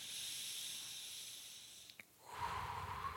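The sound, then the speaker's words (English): A slow breath drawn in through the nose during a breathing exercise: a steady airy hiss that runs for about two seconds, then gives way to a fuller, louder rush of air. “Now remember, you're extending your exhales. In through the nose,”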